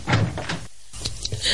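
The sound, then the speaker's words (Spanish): A door being opened, heard as a few brief clunks and knocks of the latch and panel, with a short quiet gap between them and no voices. “intentando recuperar la entereza en su aspecto, abre la puerta.”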